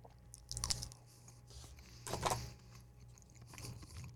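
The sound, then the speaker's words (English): Someone faintly chews and crunches on food during a meal that includes mustard potato salad. A few soft, irregular bites and moist chewing sounds come quietly on their own, with no talk. “I'm a fat ass sitting here just eating my food.”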